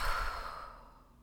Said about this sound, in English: Exhale.